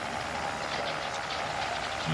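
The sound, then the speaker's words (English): Motor of a motorized tie rack running: a loud, steady, unbroken mechanical drone and whir, engine-like and even in level throughout, with no talk. “It's awfully loud. Well, you can always take the motor out and use it as an ordinary tie rack.”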